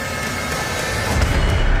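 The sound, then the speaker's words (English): Movie trailer audio: a dense, steady wash of rumbling sound with deep booming low end that swells louder toward the end, with no voices. “we just played a trailer.”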